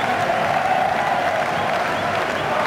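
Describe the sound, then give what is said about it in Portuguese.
Football crowd celebrating at the Caldeirão stadium in Funchal during a Marítimo match against Porto, a steady, dense roar of cheering and applause that holds loud throughout. “E ouçam a festa no Caldeirão no Funchal.”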